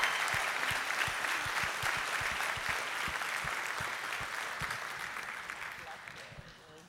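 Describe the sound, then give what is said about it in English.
Sustained applause from a church audience welcoming a guest, a dense, even patter of many hands that stays strong and then slowly fades toward the end. “If you would, put your hands together and make a lot of noise. Give Helen Burns a welcome today.”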